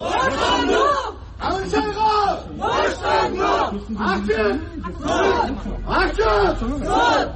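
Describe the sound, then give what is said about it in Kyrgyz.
Crowd of about 30 people outside a courthouse loudly shouting demands for a detained journalist's release and an open trial, with repeated bursts of chanted shouting separated by brief dips and overlapping voices. “Журналисти колдоп сот имаратынын алдына чогулган 30 киши Ханшайга боштондук, сот ачык болсун деп кыйкырып турушту.”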